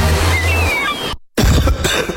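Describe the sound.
A couple of harsh, raspy coughs from a person with a cough in a radio advertisement for natural cough remedies. They burst out loudly after a brief silence, following an earlier stretch of other sound.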